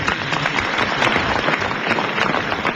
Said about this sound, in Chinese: 您要想听，您鼓鼓掌吧，您 来鼓掌。